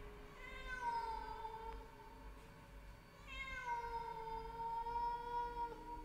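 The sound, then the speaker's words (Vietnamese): A black cat yowls mournfully at night in two long, drawn-out cries with wavering pitch. The yowls are faint but clear, with no talk over them. “Rồi một con mèo đen kìn kịt, nó nhảy tót lên trên chỗ bậu cửa. Ánh mắt nó nhìn anh Khoan xanh lè lè. Nó kêu lên mấy tiếng thê thiết trong đêm.”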